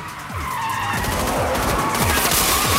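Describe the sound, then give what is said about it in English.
Tires screech and skid as a car whips through a fast U-turn in a chase, loud continuous squealing over a roaring engine, with repeated sweeping tones as the wheels slide. “A second black car is coming at them from the opposite direction. Gabriel shoots at it as they pass, then Stan does a lightning U-turn.”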